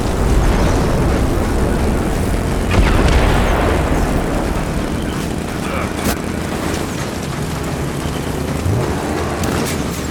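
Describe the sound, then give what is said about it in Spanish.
Fire bombs exploding in a Gears of War 4 video game cutscene: a loud, continuous low rumble and roar with a couple of sharp bursts rising out of it. “ojo con esas bombas de fuego.”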